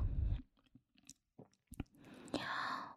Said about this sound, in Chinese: 好吃，真好吃！好久没有尝过这么美味的东西了。